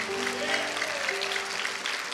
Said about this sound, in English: Let's give everybody a round of applause one more time.